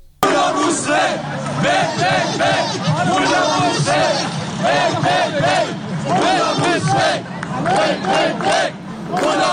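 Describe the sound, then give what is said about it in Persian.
Protesters gathered outside the Iranian embassy in Hamburg chant loudly in unison, a large crowd shouting rhythmic repeated slogans with continuous babble underneath. “از هامبورگ هم صدا داریم که مردم جمع شدن جلوی سفارت ایران.”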